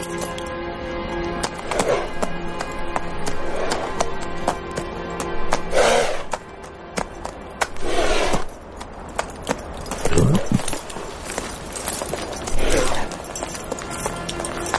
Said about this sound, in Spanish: Luego sigue cabalgando.